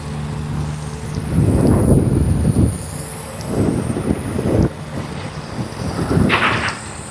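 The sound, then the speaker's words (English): A chilly wind blows into the microphone, making loud, low, rumbling buffets that rise and fall in several gusts over a steady roar. No voices. “there's a really, really chilly wind. I don't know if you can hear it in the microphone.”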